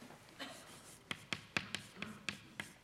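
Chalk taps and scrapes on a board as a formula is written during a mathematics lecture. Many sharp, fairly regular taps ring out over faint scratching, with no talk.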